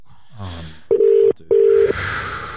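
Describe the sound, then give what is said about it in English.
A telephone dials a number with two steady, evenly pitched touch-tone beeps, each lasting under half a second, following a brief voice. “I'm calling her right now.”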